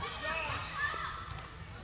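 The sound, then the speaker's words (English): A basketball is dribbled on a court during a game, the bounces soft and hard to pick out beneath a commentator's steady talk. “Dribbling and sending along to the left sideline.”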